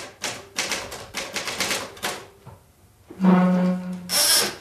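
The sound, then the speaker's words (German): A writer's typewriter rattles in a 1978 recording in Vienna: several quick bursts of key strikes, a short pause, then a louder mechanical rasp, and finally a brief high ring. “Günter Anders und seine Schreibmaschine im Originalton.”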